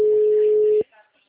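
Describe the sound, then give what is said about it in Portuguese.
Telephone tone after a dropped call: one long, steady, mid-pitched beep that cuts off abruptly, followed by near silence with a few faint sounds. “Alô, senhor, a ligação caiu?”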